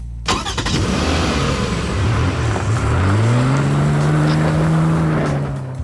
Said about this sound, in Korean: 내 앞에 하얀 자동차를 끌고 나타났다. 타, 집까지 데려다 줄게. 뭐야 이 선배, 차도 있었어?